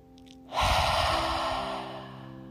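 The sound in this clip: A single deep, breathy breath during a guided breathing exercise, starting abruptly and swelling loud before slowly tapering off, with a soft steady tone sustained underneath.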